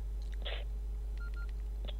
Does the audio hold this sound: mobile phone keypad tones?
yes